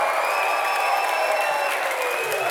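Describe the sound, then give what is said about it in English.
An audience applauds for the band, a steady, dense wash of clapping that stays loud and even throughout without a break. “Hey, make some noise for the band one more time.”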